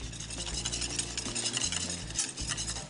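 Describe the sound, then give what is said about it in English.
Butterscotch chips stirred into a boiling pot on the stove, a few soft scraping and swishing spoon strokes against the pan in an uneven rhythm. The sound is faint, with no talking. “So last couple of steps, I'm gonna add in some of this butterscotch chip morsels. Give that a nice little mix.”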